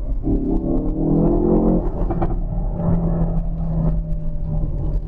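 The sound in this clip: Continuous loud engine roar from a Ford Focus RS hot hatch under hard acceleration on the road, its engine note climbing over the first couple of seconds and then holding as a steady, dense drone with no talk.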